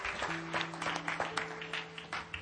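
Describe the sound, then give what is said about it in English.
Church audience claps along after being urged to stand, many quick overlapping claps in a loose rhythm over a steady held low musical tone. “Come on, everybody stand up. Give the Lord a good clap offering.”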